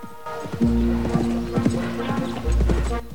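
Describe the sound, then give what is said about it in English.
Horse hooves clip-clop as a horse and rider approach, a steady, even run of many hoof strikes sounding crisp and moderately loud throughout. “At the sound of horses' hooves, she looks up. In the distance, a horse and rider appear in view over the brow of a hill.”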